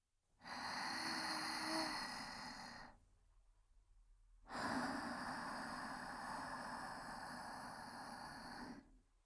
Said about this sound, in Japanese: 大きく深呼吸をします